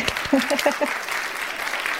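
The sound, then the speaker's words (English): Steady clapping applause from a group, a dense even patter with a brief voice heard near the start. “let's just take a moment, and maybe we could do this even in post and give a round of applause”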